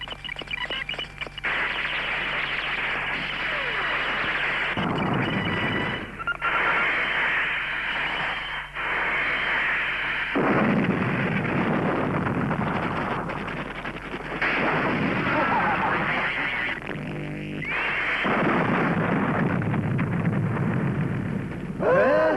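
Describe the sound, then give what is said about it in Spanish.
Explosions and artillery fire roar through an air raid scene in a 1983 Hong Kong action comedy, a dense, loud, continuous barrage of overlapping booms and rumbling that barely lets up for over twenty seconds. “¡Ataque aéreo, ataque aéreo! ¡Seguid, seguid!”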